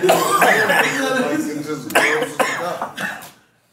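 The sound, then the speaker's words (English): A man coughs hard several times with raspy bursts and throat clearing. The coughs are loud and mixed with people talking nearby. “I'm coughing off this motherfucker, yo.”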